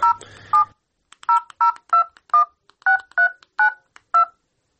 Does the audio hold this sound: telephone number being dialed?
yes